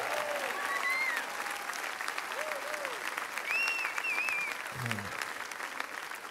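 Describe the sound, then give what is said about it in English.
A church audience at a praise night responds with applause and cheering as visitors are welcomed. Steady clapping runs throughout, and several sharp whistles rise above it. “If you're visiting us, would you mind giving us a shout and a wave? We would love to welcome you.”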